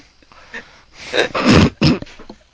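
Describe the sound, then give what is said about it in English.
A person's snort, a few short, noisy nasal and throat bursts of moderate loudness, separated by quieter breathy sounds. “You can snort all you want.”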